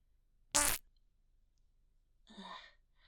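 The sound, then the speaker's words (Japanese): A short fart: one brief, loud burst, followed after a long silent pause by a fainter breathy sigh. “おならしちゃった。ああ、出る。”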